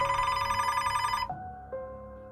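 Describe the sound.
A telephone rings with a steady electronic tone that cuts off abruptly, then gives way to quieter, simpler tones. The ringing is fairly soft and nobody speaks.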